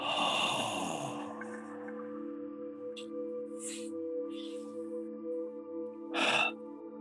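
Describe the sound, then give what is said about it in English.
Breathing during a jaw massage exercise: a brief voice at the start, then a few short, soft breath sounds, and a louder, airy exhale near the end. “Breathe in, breathe in, breathe in. And as you exhale, drop the jaw and pull it down to that fascia.”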